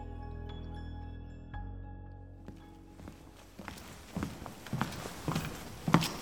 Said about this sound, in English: I'm walking to the Jefferson County Extension Office where Rosemary has been taken.